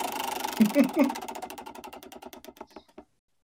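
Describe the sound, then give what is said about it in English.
Prize wheel spinning with rapid mechanical ticking that gradually slows, the ticks spacing farther apart until they stop. “I'm spinning the wheel. Spin that fucker.”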